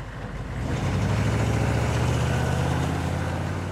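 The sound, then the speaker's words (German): Low, steady engine rumble from a truck carrying two grand pianos and driving very carefully. The drone swells slightly at the start, then holds an even, smooth tone with no voices. “Heute haben wir zwei Flügel drauf, das heißt, es ist schon ein gewisser Wert auf dem Fahrzeug und dann fahren wir schon extrem vorsichtig.”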